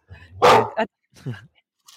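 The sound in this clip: A dog barks a few times in loud, rough bursts separated by short silences, the first bark the strongest and the later ones shorter and quieter.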